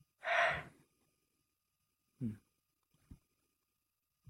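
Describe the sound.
A person breathes out in a soft, sigh-like exhale, then takes a shorter breath and makes a small breathy sound. The sounds are faint, alone and separated by quiet gaps.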